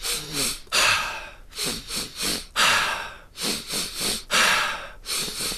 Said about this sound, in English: now keep going. So, by the time you get to your third breath, you want to feel like you're pretty full. So, you're taking like really nice big breaths in.